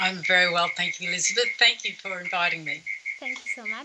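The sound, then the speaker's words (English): Crickets chirping in the evening in Brisbane, Australia, a thin, steady high-pitched trill running continuously beneath people talking and carrying on through the pauses in speech. “just before we started this interview, we said we hear a lot of crickets in the background.”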